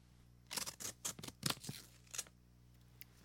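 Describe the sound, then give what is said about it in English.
A paper envelope for a game of the year award is ripped open in several short, sharp tearing bursts, then a faint final click. “Please silence for the ripping of the game of the year envelope.”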